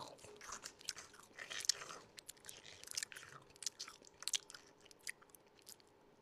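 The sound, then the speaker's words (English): Close ASMR chewing of sour Sour Patch gummy candy: many soft, wet mouth clicks and crunchy bites in an irregular rhythm, faint and without talk. “we're gonna do an ASMR of me eating this oh. sour patch.”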